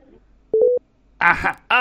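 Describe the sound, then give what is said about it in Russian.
A short telephone busy tone sounds after a call is hung up: a brief burst of quick, steady mid-pitched beeps, followed by a voice speaking. “Бросила трубку.”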